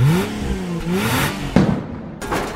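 A car engine revs for a drag race. Two rising whines of revving are followed by a sudden clattering burst, then a rough, noisy roar that trails off.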